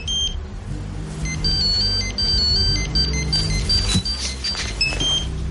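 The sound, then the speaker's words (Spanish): Mobile phone ringtone in a social drama film: a bright, high-pitched electronic melody of many short repeating notes, playing over a steady bed of low rumbling background noise. “De pronto su móvil empieza a sonar.”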